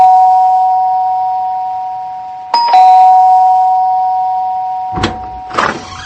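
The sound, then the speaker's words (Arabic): An apartment doorbell chimes: a sustained electronic tone fades slowly until a second, brighter ding strikes and rings out, followed near the end by a couple of short bumps. “فين الجرس؟ اهو.”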